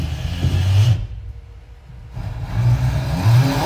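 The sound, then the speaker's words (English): A kitchen sink pull-out retractable mixer tap makes a whirring, rattling rumble. It comes in two stretches with a quieter pause in the middle. “Is it one of those kitchen sink pull-out retractable mixer tap? That is.”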